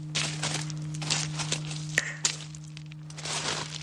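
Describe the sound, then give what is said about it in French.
Footsteps of two people crunch over stones, making irregular gritty steps with a few sharp cracks and scrapes, all over a steady low hum. “J'aime bien le bruit que font nos pas sur les pierres.”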